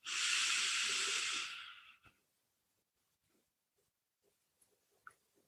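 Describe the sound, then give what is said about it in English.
A slow, deep breath drawn in, a loud, airy hiss lasting about two seconds before cutting off, followed by near silence with a few faint small noises. “As we take one more deep, deep breath in, I invite you, wherever you are, to breathe with us as we breathe in deeply.”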